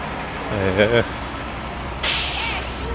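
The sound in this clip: Cement trucks with mixing drums backing up at a construction site for a large house: a brief, wavering whine, then a sharp, loud air-brake hiss that slowly fades.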